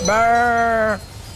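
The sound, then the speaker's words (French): A human voice imitates a ewe calling for her lamb, producing one sustained, nasal bleat of about a second with a steady pitch and rich harmonics that stops abruptly. “c'est quand tu cherches l'agneau, tu peux faire le bruit de la maman comme ça. Comme si t'étais la mère, tu l'appelles.”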